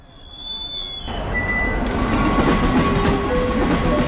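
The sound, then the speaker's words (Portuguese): A train rumbles at the busy Termini railway station in Rome on a weekend, with hundreds of people around. A loud, steady rail roar builds over the first second and then holds, with thin high tones running through it. “Carvalhão Gil entra na agitada estação de Termini. É fim de semana. Há centenas de pessoas por ali.”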